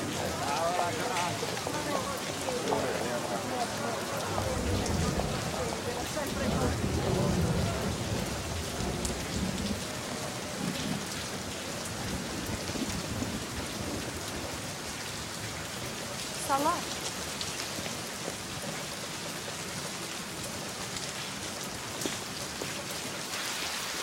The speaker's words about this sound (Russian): Пошел сильный ливень, и все ушли.